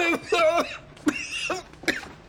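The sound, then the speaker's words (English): A person fakes snorting vitamin B powder through the nose, making two sharp, breathy nasal bursts among loud vocal exclamations. “We can make fake cocaine for ourselves out of vitamin B powder. Ooh, vitamin B, the second best vitamin. Guys, I'm telling you, the fake snorting can work. Watch.”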